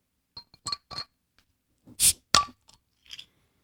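A bottle of summer seasonal beer being uncorked: a few light glassy clinks, then two sharp hissing bursts as the cork comes free, followed by a softer final rustle, all without talk.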